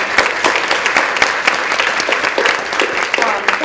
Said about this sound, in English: I just wonder if we could give them a round of applause.